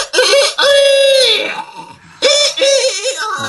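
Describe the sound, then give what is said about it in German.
An old tailless rooster crows twice, each call a loud, drawn-out cry that trails off into a falling note, separated by a short gap. “Wachet auf, wachet auf, es krähte der Hahn.”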